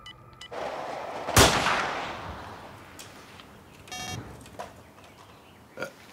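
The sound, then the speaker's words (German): A rifle shot from a badly zeroed hunting rifle aimed at wild boar: one sharp, loud crack with a long rumbling decay, followed later by a few faint clicks and a softer, brief bang near the end. “Das Gewehr ist schlecht eingeschossen. Es schießt ja, wohin es will.”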